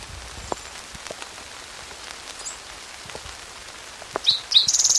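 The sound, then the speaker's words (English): Rain falls as a steady, soft patter of drops with scattered light ticks. A few faint bird chirps appear near the end. “It's raining now.”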